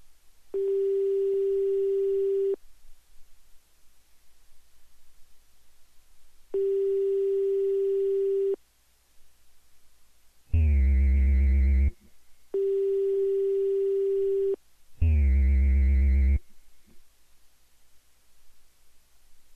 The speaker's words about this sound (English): Please wait a moment while your call is connected.